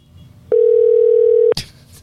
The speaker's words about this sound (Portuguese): Me liga de novo, por favor.